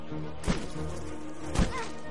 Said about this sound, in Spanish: Colgado de la liana, Mowgli patea el panal.